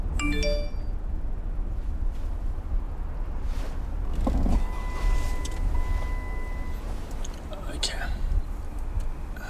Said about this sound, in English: Okay. I just got a text, I'm reading it now, from Gerard Walsh